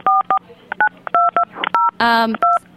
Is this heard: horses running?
no